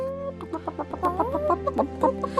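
Hen clucking in a rapid run of many short, throaty calls, loud and alone over a steady low drone.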